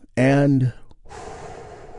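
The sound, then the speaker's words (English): A group takes a big, deep breath together during guided meditation: a brief voiced sound, a short pause, then a long, steady, airy inhale. “we begin our moment of Zen with a big, deep, healing breath that we do all together. Here we go.”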